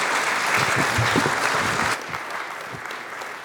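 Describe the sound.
A church audience applauds to welcome a guest speaker from Manila in the Philippines, with loud, dense clapping that drops to a softer level halfway through.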